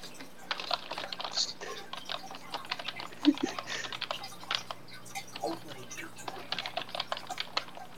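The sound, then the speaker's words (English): Typing on a computer keyboard: a rapid, continuous patter of many key clicks over a steady low hum. “I cannot spell because of this freaking keyboard.”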